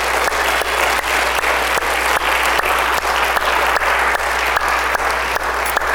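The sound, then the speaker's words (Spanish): A church audience applauding, loud, sustained clapping from many hands that forms a dense, even wash over a low steady hum, with no voices standing out. “Digan esta tarde, diga, bueno, den un aplauso al Señor.”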